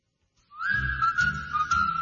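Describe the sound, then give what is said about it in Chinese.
Light, cheerful whistling in a 1958 song about the moon: a clear, steady high whistled tone held over a soft, low instrumental accompaniment. “很轻快的吹口哨声”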